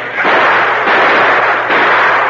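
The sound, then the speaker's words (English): Gunfire from a shootout in a radio drama: a few loud, noisy bursts in quick succession, with no talk over them. “Moving amongst the boulders with blazing guns, the Lone Ranger finally came upon the man he had hoped to find, Jim Nolan.”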